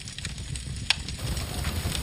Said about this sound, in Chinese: 干牛粪几乎全部由 植物纤维 构成，燃烧时的火力温婉。